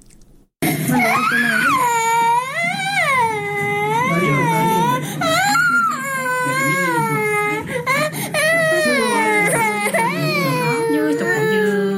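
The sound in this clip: Loud, continuous infant crying from malnourished children going hungry in Uruzgan province. Repeated wailing sobs rise and fall in pitch without pause for around eleven seconds.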